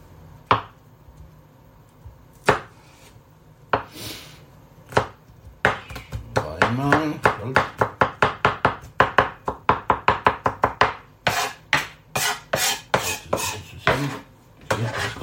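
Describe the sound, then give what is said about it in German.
Knife chopping a garlic clove on a cutting board: a few sparse cuts at first, then many rapid, evenly spaced knocks that continue crisp and steady to the end. “ich die Knoblauchzehe zwischen die Finger und das Messer, dann schneide ich einmal der Länge nach durch und dann habe ich so ein bisschen rein. Dann sind so kleine Stückchen.”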